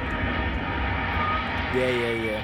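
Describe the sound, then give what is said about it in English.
A takeoff sound effect of an airplane engine plays as a steady, moderately loud roar, with voices briefly heard over it. “That's a takeoff? We need to speak to the sound guy.”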